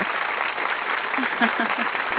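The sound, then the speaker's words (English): Dense, steady clapping celebrating the winner of the 2009 West Coast Model Search, a continuous even patter across about two seconds, with a few brief low vocal sounds underneath. “I have some claps. There you go.”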